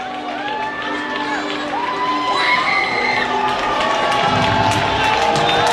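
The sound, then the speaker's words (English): Home crowd cheering for the Storm Chasers at a minor league baseball game with the bases loaded on a full count, a loud, sustained roar of shouts, whoops and whistles, with children's voices audible and the noise swelling slightly toward the end. “And the home crowd understands that, trying to get behind the Storm Chasers.”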